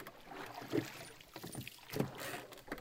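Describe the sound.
Oars working a rowboat that has just pushed off from a landing stage, the oars set in oarlocks and pulled with powerful strokes. A few splashing strokes stand out over a low, steady wash of water.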